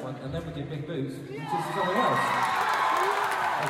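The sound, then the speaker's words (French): A concert audience cheers and shouts in reaction to a song being announced for a live performance. A steady crowd roar swells louder partway through and holds at full volume, with whoops and voices mixed in. “Il suffit d'entendre la réaction du public pour piger la réputation du titre.”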